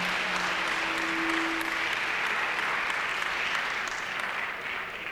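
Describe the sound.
Audience applause at an evening performance: a dense, steady wash of clapping from many hands that holds its loudness the whole way through and eases off slightly at the end.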